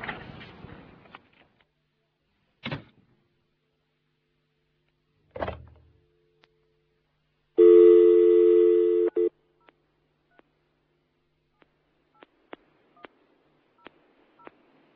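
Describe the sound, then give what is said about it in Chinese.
A telephone number is dialed: a few handling clunks with pauses between them, then a steady held tone, followed by a quick series of short, sharp keypad beeps at uneven intervals. “你刚才打的电话号码暂时未能接通，请你等一阵再打过啦。”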